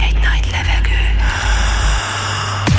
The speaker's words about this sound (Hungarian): Felkészültél. Vigy egy nagy levegőt.